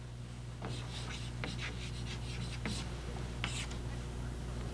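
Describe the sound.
Pen scratching on paper while drawing a circle: a few soft, scratchy strokes, quiet over a steady low hum.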